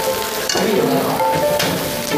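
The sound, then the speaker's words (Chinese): Fujian oyster omelette frying in a pan, a steady, dense sizzle and crackle of hot oil that holds at an even loudness throughout, with no talk over it. “这个是我们福建的这个海蛎煎，我现场操作现场煎给你们。”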